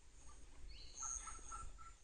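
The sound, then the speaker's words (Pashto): Hornbill calls in India as the birds gather fruit from trees: a few short, faint tonal calls with a thin high whistle above them, set over a low, steady background rumble. “د ښکر لرونکي مرغانو غږونو په اورېدو سره زه اندېښمن شوم چې دلته څه خبره ده”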